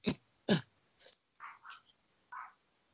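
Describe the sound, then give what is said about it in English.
Dogs barking wildly: several short, sharp barks in an uneven burst pattern, the first two strongest and the rest fainter and more clipped, with quiet gaps between them. “dogs are going wild now”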